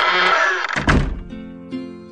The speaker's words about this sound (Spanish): en cuanto se cerró la puerta de la torre